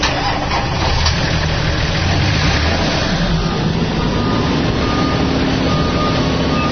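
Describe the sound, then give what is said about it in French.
Engines of a six-vehicle UN MINUSCA and national gendarmerie convoy run as it departs Apawa for Gouzi: a steady, unbroken rumble mixed with broad road noise for the whole stretch. “Il est 8h15 quand le chef de bureau MINUSCA Apawa donne le top pour le départ du convoi destination Gouzi.”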